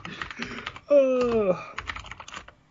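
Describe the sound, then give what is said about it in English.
Rapid, irregular clicking of typing on a computer keyboard comes in bursts before and after a short spoken stretch in the middle. “I'm gonna look at it now so I can just look at it again. I just typed in Mario Kart.”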